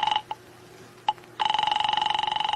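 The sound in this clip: A telephone rings: a few brief electronic blips come first, then a sustained, rapidly pulsing trill that continues to the end.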